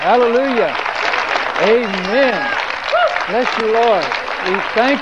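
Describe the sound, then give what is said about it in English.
Congregation clapping hands in praise at an evening church service, a steady wash of applause running beneath a voice calling out praise throughout. “Why don't you just give Him a big hand clap of praise tonight.”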